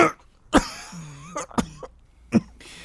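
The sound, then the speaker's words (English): A man coughs a few times, harsh and throaty, with throat clearing between the coughs. The coughs come in uneven bursts over a quiet background. “still coughing, does try to speak”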